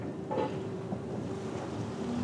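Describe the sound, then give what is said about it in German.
The small fast ferry Töverland-Express, which shuttles between Norddeich and Juist, goes back into the water with a steady, low rumble of water and wind noise and no talk. “Ist los. Dieser Tövi geht wieder zu Wasser. Eine seiner kleinen Schnellfähren, die mehrmals täglich zwischen Norddeich und Jüst pendeln.”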